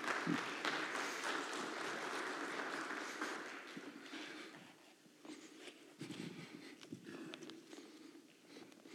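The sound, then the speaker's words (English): Applause from a church audience welcoming a guest speaker on a Sunday morning, a soft continuous patter of many hands that eases off midway and then carries on at a lower, uneven level. “And so would you just, with your hands, welcome this morning Woody Jones.”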